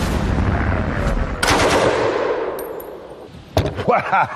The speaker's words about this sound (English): The Czech-designed Bren became one of the most iconic British weapons of World War II. It was so versatile, it quickly became the backbone of the infantry and was vital in anti-tank warfare.